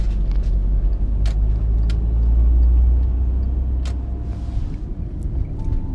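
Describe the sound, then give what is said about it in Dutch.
A car driving through the centre of Breda gives a steady low engine rumble and road noise throughout. A few faint ticks and knocks come through over the drone, and no voices are heard. “Zo rijden we dan door het centrum van Breda, een beetje van controle naar controle.”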